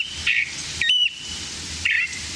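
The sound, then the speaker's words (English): A California thrasher sings on a January morning in thick chaparral in Contra Costa County, California, giving a few shrill, high whistled and squealing phrases separated by short pauses over a soft background hiss. “this thrasher is singing out on a January morning in Contra Costa County, California, to insist that the nearby competition stay away.”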